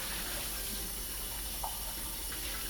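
Dishes being washed under running tap water: a steady, even hiss of flowing water continues throughout, faint and without clear clatter.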